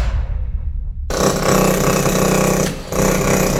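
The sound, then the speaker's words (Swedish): A rammer, a hydraulic hammer compactor, pounding away: a second of quieter noise, then a sudden loud, dense, continuous hammering that cuts out briefly near the end and resumes. “Hörde du? Det är en rammer i sitt naturliga habitat.”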